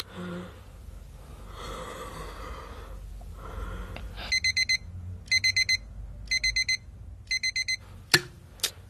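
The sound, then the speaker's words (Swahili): An alarm clock rings in four quick bursts of high, pulsing electronic ringing. Each burst has a few sharp repeated tones, and a few seconds of breathing sounds come before it. “Ah, yaani kengere imelia, hata sijapata usingizi leo.”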